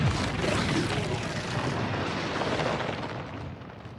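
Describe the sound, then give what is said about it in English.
Explosion destroying building foundations, heard as a dense, loud, rumbling roar of broad noise. It stays fairly steady for about four seconds and eases slightly toward the end. “Now those foundations are gone. Sorry. It just explodes.”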